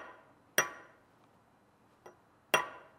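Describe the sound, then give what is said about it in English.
Three sharp metallic taps from a light hammer striking a small workpiece being set in place, the middle tap softer, each with a short ringing decay against a quiet background. “like this with a light hammer. Get it centered, pretty darn centered.”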